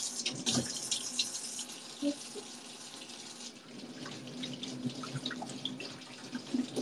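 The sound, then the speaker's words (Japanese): Water runs from a tap into a sink while hands are washed: a steady, fairly faint rush with small irregular splashes throughout. No talk. “手洗うか。洗いますよ。”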